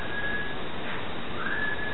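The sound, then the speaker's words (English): A faint, thin whistled tone comes and goes over a loud, steady hiss that runs through the whole two seconds. “Okay, and here's the whistling clip one more time.”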